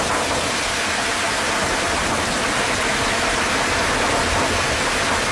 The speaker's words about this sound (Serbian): recimo kada dobuje kiša po prozoru ili na krovu.